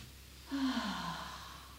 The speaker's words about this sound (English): Taking some deeper breaths.